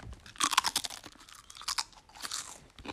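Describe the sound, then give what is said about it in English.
Salsa chips crunch as they are chewed: a fast, irregular run of crisp bites and grinding chews with sharp, bright crackle, moderately loud, with no talking. “we also have some salsa chips here, as you heard.”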